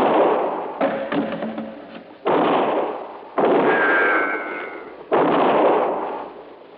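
Several heavy gunshots in a radio drama shootout near a warehouse, each a loud booming blast with a long rumbling decay, spaced a second or more apart, with no talking between them.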